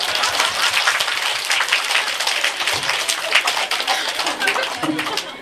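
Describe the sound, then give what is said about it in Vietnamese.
Applause from an audience at a Buddhist dharma talk: dense, steady clapping that stays at an even loudness throughout. “vỗ tay”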